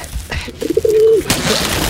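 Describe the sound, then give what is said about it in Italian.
A pigeon gives a single drawn-out, mid-pitched coo that wavers slightly, set against a noisy background with a few scuffs and knocks. “Ma cazzo sono sti piccioni, li ho purgati 3 ore fa.”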